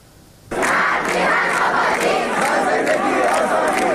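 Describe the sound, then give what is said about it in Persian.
Iranian university students chant protest slogans against the Islamic Republic's leader. A loud, dense crowd chant starts abruptly after a quiet moment and holds steady to the end. “صدای معترضان این روزها در همه جای ایران بلند است. در دانشگاه ها هم این اعتراض ها همچنان تداوم دارند.”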